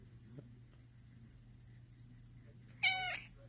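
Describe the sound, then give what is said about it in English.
A black short-haired Bombay cat gives one short, bright meow near the end, after a quiet stretch with only a faint low hum underneath. “He's a Bombay cat. The black cat's with the short coat.”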